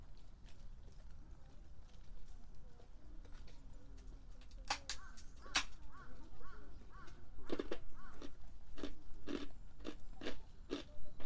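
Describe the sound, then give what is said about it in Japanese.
Snacks are crunched and chewed, with soft chewing noise early on and then a run of sharp, crisp crunches that grow louder and closer together toward the end. “たまにはこうやってね、お菓子でも食べて休むことも大事よね。”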